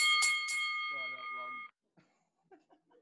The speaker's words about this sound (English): That sounds like a boxing ring bell. That's the doorbell, man. Oh, there's the doorbell.